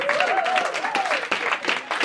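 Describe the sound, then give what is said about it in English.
An audience at a comedy show in a tavern breaks into dense, continuous applause. A voice rises over the clapping, which stays loud and steady throughout. “Give yourselves a round of applause for coming out”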